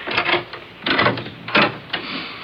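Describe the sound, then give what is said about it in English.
A door being opened in a home, heard as a few short clunks and rattles of mechanical movement, fairly loud and separated by brief gaps, with no voices. “Now, let me open the door, and don't you say a word.”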